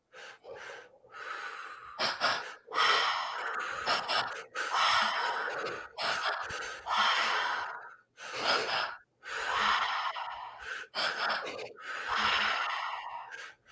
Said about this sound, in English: Powerful inhale, powerful exhale. Deepening that breath.